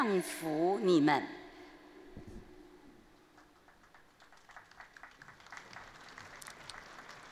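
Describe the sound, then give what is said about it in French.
Applause from crowds of pilgrims fills a public square at St. Peter's, a steady crackling patter after a brief spoken voice at the start, moderately loud and continuing to the end. “Et nous assistons aux applaudissements et nous sommes toujours sur la place Saint-Pierre.”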